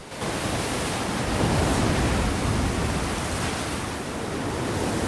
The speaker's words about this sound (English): She peers over the edge as the milky white froth of waves engulfs large dark boulders.